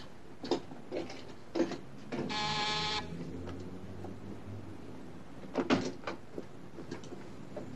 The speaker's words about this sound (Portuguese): Por que você tinha que abrir a porta?